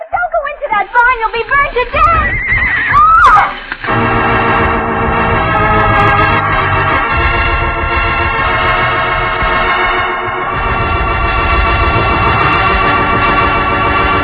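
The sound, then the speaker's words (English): Horses neigh in a burning barn with a few shrill, wavering whinnies that rise and fall in pitch, then a loud, sustained tonal swell takes over and holds to the end. “the horses will be burned to death. Madre mia, that fire is spreading fast. Cisco, them horses. I'm going in after them.”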